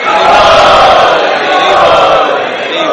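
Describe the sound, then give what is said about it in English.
A crowd of devotees at a festival chanting loudly together in welcome, a dense, sustained roar of many voices in unison that swells and eases slightly. “let us welcome them by three times loudly chanting.”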